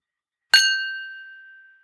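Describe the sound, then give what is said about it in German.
Crystal glasses clinking once in a toast: a single bright, high clink that rings on as a clear tone and fades away over more than a second, with no voices. “Und jetzt machen wir nochmal hier Sound Atmo, weil das wirklich Kristall ist.”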